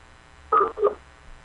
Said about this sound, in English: I'm calling you.